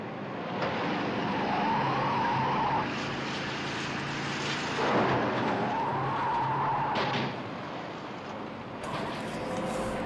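A car being driven wildly in a dubbed film scene roars steadily, with a wavering high whine rising and falling over the engine noise and a brief louder surge midway.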